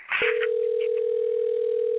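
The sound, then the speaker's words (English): Telephone dial tone as a phone call is placed: a brief click, then a steady, unbroken tone that holds at one pitch until the end. “Yeah, I got to make a phone call real quick, okay?”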